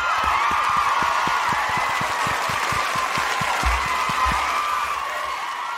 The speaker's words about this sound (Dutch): Ja, en dan kunnen wij niet anders, Bert, dan daar gewoon even een hartelijk applausje voor te geven.